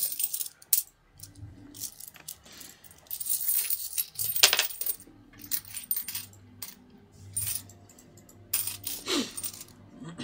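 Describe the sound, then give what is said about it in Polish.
A penny is put into something, with a few sharp metallic clinks and taps spaced among quiet rattling and handling noises. “to włożę jakąś swoją monetę tutaj. Nie wiem, no, no zobaczymy, czy się dźwignie, czy nie. Monetę wsadzasz.”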